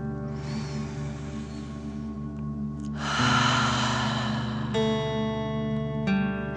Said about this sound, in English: Keep your hands on your heart and let's take three more deep dragon breaths. Deep breath in and out.